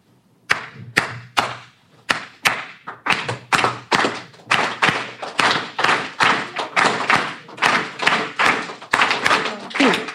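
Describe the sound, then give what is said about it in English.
Cuban clave rhythm being tapped out as sharp, loud percussive knocks in a steady repeating syncopated pattern, many strikes in a row with no other instruments. “It has this beautiful thing called clave. It sounds like this.”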